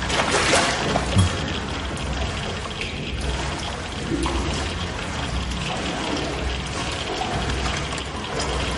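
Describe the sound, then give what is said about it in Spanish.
Water sloshes steadily as people wade slowly into ankle-deep water in a tunnel about four metres wide, a continuous broad wash with a brief louder splash near the start. “Se meten poco a poco en el agua. El agua les cubre los tobillos.”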